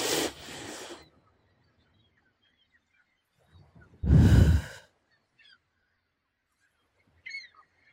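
Two deep inhales during a guided meditation. A softer, airy breath is followed after a pause by a louder, fuller one, with near silence around them.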